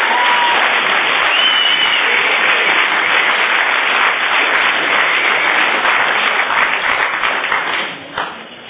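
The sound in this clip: Audience applause welcoming a speaker to the front at a Visalia recovery meeting: a dense, steady wash of many hands clapping that holds through most of the stretch, then tapers and thins out at the end.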